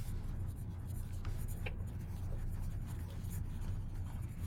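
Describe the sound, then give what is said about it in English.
Writing by hand, with soft, continuous scratchy strokes under a steady background hiss. “I bet all this writing is like ASMR.”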